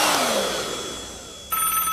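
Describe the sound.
A mobile phone rings: a brief electronic ringtone cuts in partway through, after a fading, hissing sweep.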